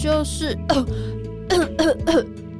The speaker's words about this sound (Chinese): 就是一直咳嗽，不过咳到喉咙好痛哦。